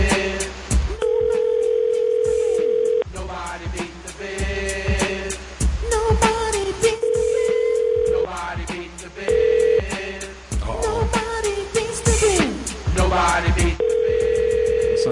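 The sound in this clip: A telephone ringback tone sounds before a call goes to voicemail, as several long, steady, mid-pitched tones of uneven length and spacing. They are heard over a loud rhythmic beat.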